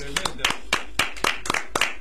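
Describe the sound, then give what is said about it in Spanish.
Rhythmic clapping from a church audience, many sharp claps in a steady, even beat, with voices audible beneath them. “Voy a pedir un aplauso.”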